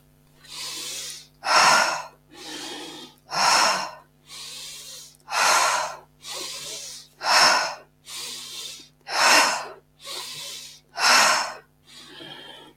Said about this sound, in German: Schau mal, ob du noch intensiver einatmen kannst.